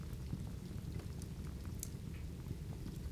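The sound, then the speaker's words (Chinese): Rain falling, a faint, steady hiss of soft patter that continues evenly throughout, with no voices. “听见了什么？雨声。”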